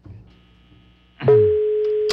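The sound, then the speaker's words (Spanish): The ringback tone of an outgoing call to someone's phone, going unanswered, starts about halfway through after a soft click and then holds as one steady, fairly loud mid-pitched tone to the end, with faint low rumbling before it. “Está sonando el teléfono de la señora Cecilia, pero no contesta.”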